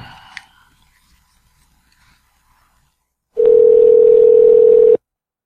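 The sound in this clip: A steady telephone tone sounds during a call redial, holding one even pitch for about a second and a half after near silence and a faint click.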